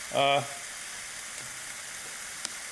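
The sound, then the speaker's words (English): Steak sizzling as it cooks in a cheap panini press: a steady, even hiss of frying runs through the whole clip, with one small click near the end. “So while the steak is cooking, it's looking pretty good.”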